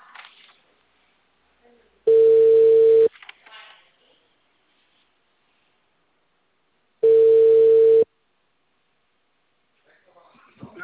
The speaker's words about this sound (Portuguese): Tá chamando.